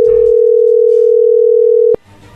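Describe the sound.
A loud, steady single-pitched telephone dial tone hums unbroken as a call is being dialed, then cuts off abruptly with a click, leaving a faint low hum.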